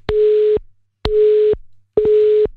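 A telephone busy signal sounds while calling back a dropped caller: three evenly spaced, steady mid-pitched tone bursts, each about half a second long and separated by silence.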